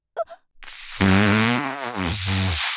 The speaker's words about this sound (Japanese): はしたないけどやるしかないわね。おならは出てもいいけど、